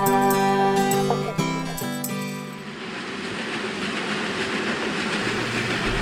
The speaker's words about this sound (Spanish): Y en tren. Viajar en tren.